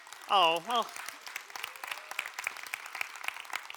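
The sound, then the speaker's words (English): Audience clapping for a married man's joke: a brief voiced sound at the start, then a steady, fairly faint patter of many claps that continues to the end. “it's actually, they're clapping for you, because you got to put up with this for 15 years.”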